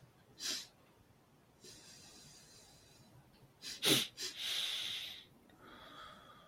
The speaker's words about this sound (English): so I take the two breaths in through my nose and exhale through the nose